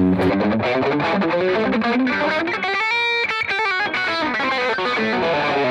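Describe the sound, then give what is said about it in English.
An electric guitar plays through an Eddie Boost Drive pedal into a high-gain amp tone. Loud, grindy, heavily distorted chords and notes sound on their own without any talk. “Like that sounds like a high gain amp.”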